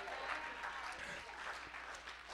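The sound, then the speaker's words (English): A church audience claps during an evening worship service: a faint, steady patter of many hands running unbroken for the whole short stretch. “Somebody give the Lord a shout and a hand clap.”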